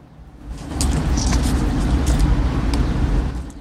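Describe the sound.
Car being driven down a street, its road rumble swelling in after about half a second and holding as a steady low engine and tyre drone, with no voices.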